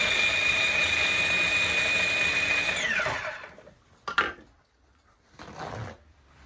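A food processor pulses once on a Greek orange pie (portokalopita) mixture, a steady high motor whine for about three seconds that winds down, followed by a couple of brief clatters.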